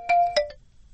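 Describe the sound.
An electronic telephone rings with an incoming call to a radio call-in show, sounding as a few quick, bright tonal chime pulses, the first longest, before falling silent.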